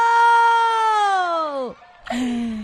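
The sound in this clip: A child character's crying wail in a schoolroom scene, one long high sustained cry that slides down in pitch and breaks off, followed by another sobbing wail.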